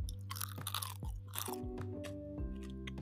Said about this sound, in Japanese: 特徴は、なんか表面が結構パリッとしてて、中がちょっとふわっとしてる感じなんですよね。ちょっと今、あぐんでいただきます。